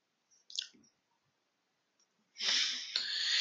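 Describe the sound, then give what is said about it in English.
A voice imitates the sharp breath a singer takes in a hard song, a loud airy hiss that begins abruptly and holds to the end with one brief break, after a faint, short sound earlier on. “she struggled to take a breath. The granted, the song's really hard, and you have to take a breath like...”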